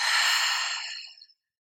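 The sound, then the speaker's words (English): A single deep exhale through the mouth, a soft, breathy rush that fades away over about a second and stands alone. “feel the breath start to come alive as you inhale through your nose. And maybe start to feel the exhale flow out through the mouth.”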